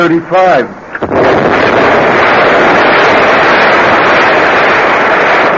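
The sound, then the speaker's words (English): A time bomb explodes aboard a boat in fog. A brief voice is cut off by a sudden loud blast, followed by a sustained, even roaring rush that continues unbroken to the end. “Oh, no! The time bomb planted aboard the boat last night certainly did its job.”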